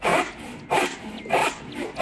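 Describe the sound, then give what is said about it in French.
Rasping strokes of a wood saw cutting through wood, a rough, even scrape with louder pushes recurring at a steady rhythm about every two-thirds of a second. “C'est ouf, une scie. Ouais, c'est une scie. C'est une scie à bois, oui.”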